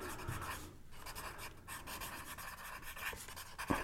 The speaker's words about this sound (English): These mics are very good at picking up pencils writing on paper.